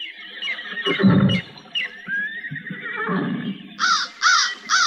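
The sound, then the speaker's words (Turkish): A horse neighing near the edge of a stream: loud snorting bursts, then a drawn-out whinny, followed by a few short, high repeated calls near the end. “İşte ata da yaklaştım. Dur kınalım. Ne olursun dur. Yavaş.”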